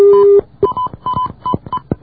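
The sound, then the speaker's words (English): A telephone number is dialed for an overseas call, with DTMF keypad tones: a longer steady tone, then a quick, uneven run of short beeps, loud and clear with no talk. “I dialed that number correctly, but I'll try it one more time. I'm a patient person, and I'm willing to dial this.”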